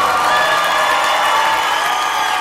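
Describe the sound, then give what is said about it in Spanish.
A radio station audience applauds and cheers, a loud, continuous wash of clapping and crowd noise with no pauses. “Denle más fuerte ese aplauso.”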